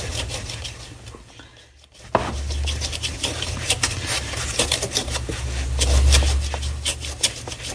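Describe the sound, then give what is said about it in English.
A knife pressed down and rocked through a tough plant stem, making a series of irregular crisp cracks and crunching snaps with low, heavy thuds after a brief quiet pause at the start. “All right, so I'm going to bear down on this knife. Slice the stem right off.”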